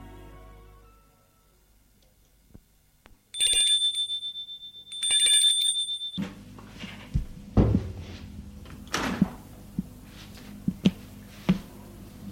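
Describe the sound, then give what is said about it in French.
A doorbell rings twice at the door of a house, two bright, high-pitched chiming bursts about a second apart, followed by low rumbling noise and a few soft clicks. “À 15h, Charles-André sonne chez Mathilde.”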